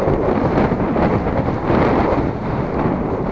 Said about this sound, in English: Just took a left onto Valencia, back into the wind again.